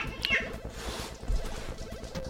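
A cat meows once, briefly and faintly, near the start over a low background rumble.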